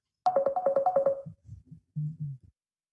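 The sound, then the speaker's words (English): Phone notification tone: a rapid string of bright, chirpy electronic notes, then a few lower, softer blips, short and clear with no talk over it. “Let me just get this notification shut off.”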